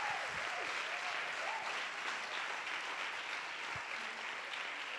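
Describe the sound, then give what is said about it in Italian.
A church audience applauds in a steady, fairly faint wash of clapping that holds evenly from start to finish, with no speech. “Un applauso forte a quel Dio che ci cambia.”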